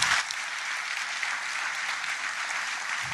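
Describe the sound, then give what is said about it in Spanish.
Audience applause at a Canarian-Cuban solidarity event, a continuous, even roar of many hands clapping at a soft, steady level from start to finish, with no voices over it. “Les pido un aplauso para estas personas”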